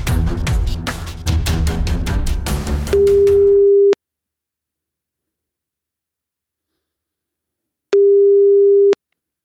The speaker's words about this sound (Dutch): Ik ga Eva bellen.